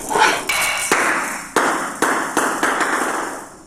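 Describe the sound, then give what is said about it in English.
Sharp digital hits from a table tennis video game, where the ball is returned with a key press: a run of crisp, clacking impacts at uneven intervals, each decaying quickly, with no talk. “So I'm gonna move with my arrow keys and hit the space bar to hit the ball back. Basically how you play this game.”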